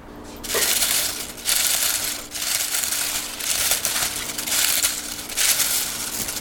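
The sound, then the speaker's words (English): Homegrown kale chips from a garden crunch in repeated, crisp bursts. A handful of brittle crackling bites follow one another at a steady pace, with short pauses between them and no talk. “Isn't that a lovely sound? Isn't that incredible? It's not like chips, right? They're called kale chips, but... And to me, they're particularly delicious because they come from my garden.”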